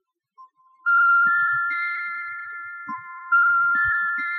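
An electronic phone rings as a call is placed to a spaceport control tower, sounding as sustained high tones that step between a few pitches, with faint soft clicks underneath.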